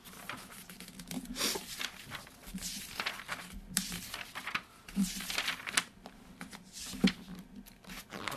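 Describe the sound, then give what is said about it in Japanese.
Pages of a magazine are flipped through quickly, making many soft, crisp paper rustles and flutters in an irregular rhythm at a quiet level. “今、ベラベラめくってますけど。”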